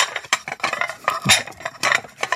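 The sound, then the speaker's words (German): Plates and dishes clatter softly to create a restaurant atmosphere: many continuous light clinks and knocks of crockery and cutlery in an uneven, busy rhythm, with no voices. “Also das ist so ein Tellerklappern aus dem Hintergrund”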